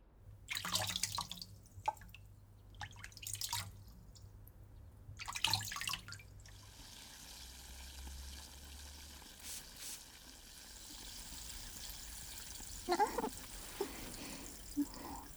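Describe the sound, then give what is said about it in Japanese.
Faint hot-water rinsing: a few short bursts of splashing and pouring, then a quieter stretch of soft trickling and drips before one more brief splash. “一回お湯ですすぎますね。”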